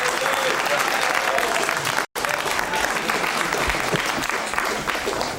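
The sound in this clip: Studio audience applause at a game show with a cash prize draw: dense, loud, steady clapping that fills the whole stretch, broken only by a very short gap partway through.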